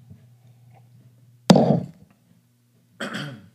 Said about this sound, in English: I got a little lump in my throat here. Bear with me while I drink some coffee.